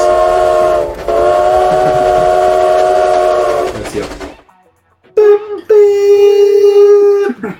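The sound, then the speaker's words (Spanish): Train whistle sound effect: two long, sustained, tonal blasts separated by a short gap. The second blast briefly breaks near its start and then holds steady to the end. The sound is loud and plays alone with no talking. “Ahora sí, ya estamos bien subidos en el tren.”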